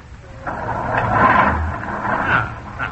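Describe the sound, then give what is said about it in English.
A vehicle engine started with a large starter button: a rough, rumbling noise swells in after a short pause, peaks, then eases into a steadier running sound with a few small bumps. “The starter is that big button right over there.”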